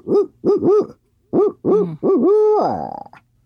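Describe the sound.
A human voice imitates a barred owl call. A rhythmic sequence of hoots comes in two phrases, the last hoot long, drawn out and falling in pitch at the end, with no other sound.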